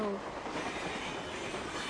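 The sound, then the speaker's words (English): Toy trains run on a track with a quiet, steady rumbling rattle of wheels that continues without clear breaks. “You make those trains go any faster and they won't stay on the track.”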